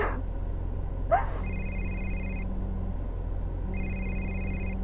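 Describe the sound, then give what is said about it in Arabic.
Electronic telephone ringtone signalling an incoming call, sounding as two steady tonal bursts separated by a short gap, moderately faint over a constant low background hum. “إسلام اتصل إسلام اتصل آه، هذا اسلام قاعد يتصل”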